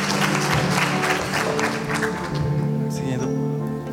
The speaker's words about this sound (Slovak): Tlieska za ním. Naozaj.